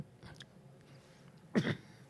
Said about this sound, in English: clear my throat